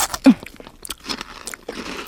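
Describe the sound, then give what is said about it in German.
A crisp bite into a crunchy star-shaped cookie sprinkled with sparkly topping: one loud, sharp crunch, then softer, scattered chewing sounds. “So, Fläschchen auf. Raufgestreut auf den Sternkeks. Bitteschön. Oh, der funkelt ja richtig, der Keks. Oh, den muss ich probieren.”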